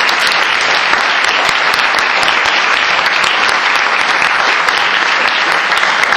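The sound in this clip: A Stop the War audience in Newcastle gives a speaker a loud welcome, a dense, continuous roar of many hands clapping that holds steady at full strength throughout.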